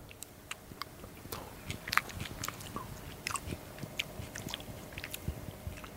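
Biting and chewing as someone eats fish with chili: many faint, irregular crisp clicks and small crunches with no talking.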